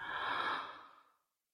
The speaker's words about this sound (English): two, three, four, hold, two, three, exhale, two, three, four, five. Breathe in,